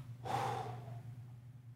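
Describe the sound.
A voice imitates a deep breath blown out over a room: a single breathy whoosh that swells quickly and then fades, over a low, steady hum.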